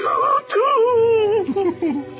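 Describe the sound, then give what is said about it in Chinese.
A voice wails and moans in theatrical grief, imitating people weeping at a deathbed, with long, wavering, sobbing tones that rise and fall across the whole clip. “在场的人啊同时都响起了哭声”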